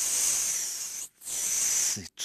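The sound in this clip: A human voice imitating a snake's hiss: long, steady, sharp hisses broken by brief pauses for breath.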